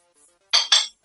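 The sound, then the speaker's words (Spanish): A plate drops and breaks, two loud, sharp crashes in quick succession, the second close behind the first, with no talk around them. “¿Acabas de romper un plato? ¿Estás jodiendo? Sí. Se me ha caído”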